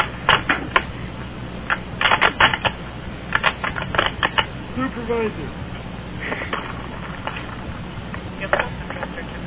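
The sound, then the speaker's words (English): Typing on a keyboard: irregular clusters of sharp key clicks, some in quick bursts and others spread out, with a voice briefly in the background. “You are typing with your wiener, aren't you? You type with your wiener.”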